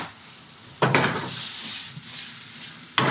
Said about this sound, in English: Quick toss in the pan.